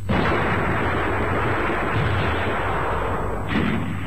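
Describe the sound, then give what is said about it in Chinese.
Massed gunfire in a battle scene: a loud, dense, unbroken roar of overlapping shots that holds steady from start to finish, with no voices. “集中火力封锁前面。”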